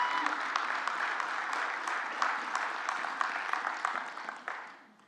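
A church audience claps to welcome this year's Awana program commanders to the front, a brisk patter of hands at moderate loudness that thins out and fades away over the final second.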